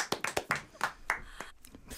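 Hand clapping given as a standing ovation: a quick run of sharp, separate claps from a few people, fairly loud and uneven, spacing out and fading toward the end.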